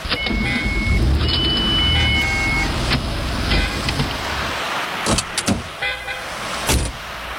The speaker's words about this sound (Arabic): شوية شوية بس بدي اصف السيارة